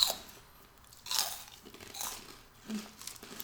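Crunchy chewing of a sweet snack likened to a sweet hash brown or caramel popcorn: a few loud, crisp bursts of biting and crunching separated by quieter mouth sounds, with no talking.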